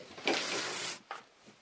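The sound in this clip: A dresser drawer painted to look like jazz lockers slides open with a soft scraping rush lasting under a second. A brief knock follows, then a faint tap.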